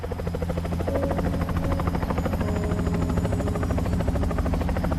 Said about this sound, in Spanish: Subieron al helicóptero.